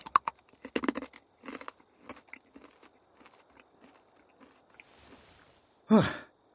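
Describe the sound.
Hard candy being crunched and chewed: a burst of crisp, irregular crunches at first, thinning into softer, quieter mouth sounds, then one louder breathy burst near the end.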